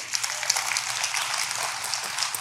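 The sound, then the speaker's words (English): Brief audience clapping at a live talk, a dense, even patter of many hands lasting a couple of seconds, fairly soft and steady with no clear voices. “So let's clap for that.”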